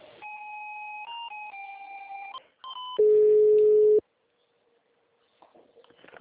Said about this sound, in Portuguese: Eu vou tocar novamente, só mais um instante,